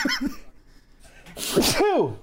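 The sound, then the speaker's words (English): A single sneeze erupts in the middle of a conversation: a sharp, noisy burst followed by a short voiced exclamation, with people talking around it. “Ooh, bless you. Bless you.”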